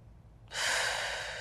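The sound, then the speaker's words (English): A deep breath drawn in during a guided relaxation exercise: a quiet start gives way to a loud, steady, airy rush of inhaled air that keeps going to the end. “just relax your shoulders, sit back, and just inhale, hold it,”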